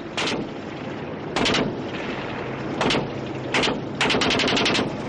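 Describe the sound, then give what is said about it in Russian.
Machine-gun fire from a battle at trenches as tanks and infantry advance: sharp, loud short bursts at irregular intervals, ending in a longer rapid string of shots, over a steady rumbling background. “В бруствер окопа Лопахина и Копытовского попадает пулеметная очередь.”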